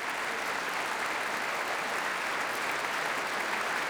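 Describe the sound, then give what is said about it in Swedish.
Audience applause for an orchestra and vocal soloists at the end of a concert, a dense, even clapping that holds steady throughout with no voices over it. “tar emot applåder och så gör också kvällens solister”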